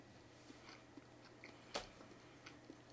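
Faint chewing of salted yokan, a red bean jelly, with soft mouth sounds and one sharper crunch-like click near the middle, otherwise quiet.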